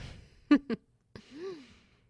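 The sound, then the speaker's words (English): Heavy breathing after a workout: two quick, sharp breaths, then a longer voiced exhale that rises and falls in pitch, all fairly faint. “That was exactly what I needed after a workout.”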